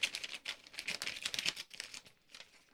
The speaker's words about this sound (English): I think I'm the only person in the room that can open an envelope.